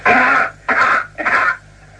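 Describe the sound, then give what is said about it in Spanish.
Three coughs, rendered as they would sound on Mars, come as evenly spaced, fairly loud bursts with a muffled, dulled tone. “Vamos a repetir la tos en la Tierra y la tos en Marte.”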